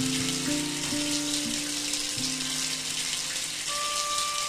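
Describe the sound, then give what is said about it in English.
Water pours from a shower in a studio building, a steady, dense hiss of spray that stays even from start to finish, with faint sustained tones humming beneath it. “That's the sound of the shower.”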